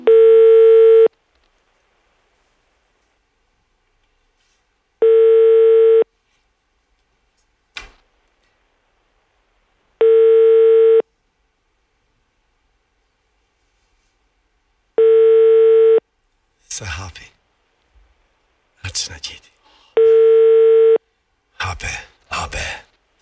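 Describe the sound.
Telephone line tone while calling a reception number: five steady tones of about one second each, evenly spaced, with short noisy bursts in the later half.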